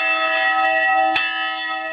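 A large bell rings with a rich, sustained, layered tone that hangs throughout, renewed by a single fresh strike about midway before the ringing carries on at a steady level.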